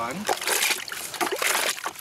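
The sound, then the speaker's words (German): Warm soapy water sloshes and splashes during a main wash, in uneven surges of watery churning with short trickles between them. “Ja, das ist jetzt der Hauptwaschgang. Das ist jetzt warmes Wasser mit Seife.”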